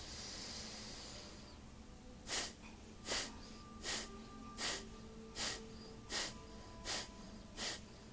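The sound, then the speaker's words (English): Breathing exercise during a gentle hatha yoga session: eight short, forceful hissing exhales in a steady, even rhythm, about one every three-quarters of a second, following a quiet lead-in, with no talk. “let's take a deep breath in together. Exhale through the mouth.”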